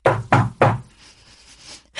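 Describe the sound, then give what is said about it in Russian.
Careful knocking on a door: three firm, evenly spaced raps in quick succession, followed by a quiet pause with no voices. “Я осторожно постучала в дверь.”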